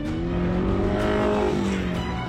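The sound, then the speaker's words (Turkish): A car's engine runs as the car is driven, giving a continuous, steady rumbling drone whose pitch wavers slightly up and down throughout. “Çalışıyor. Araba hayal edebileceğimden bile iyi gidiyor.”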